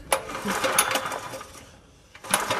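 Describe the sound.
A petrol engine is cranked by its starter but fails to catch, with fuel leaking from the wrong opening. A rapid, rough mechanical whirring runs steadily, fades to a brief pause, then returns in one more short burst.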